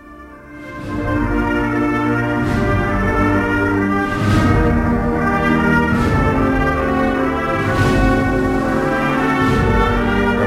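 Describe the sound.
A band from Jaén plays a processional march dedicated to a religious brotherhood, with sustained, full brass chords over heavy drum strokes landing at a steady, slow interval, loud and continuous without voices.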